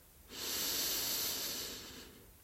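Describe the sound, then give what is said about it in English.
A slow, deep inhale, taken on a cue to breathe slowly and relax. One long, breathy hiss swells in, holds steady, then tapers off gently. No talking is heard. “Feel yourself breathing slowly. Inhale.”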